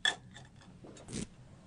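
Small objects rattle and clink as someone rummages through a cup full of junk: a few short, faint clattering bursts with quiet gaps between them.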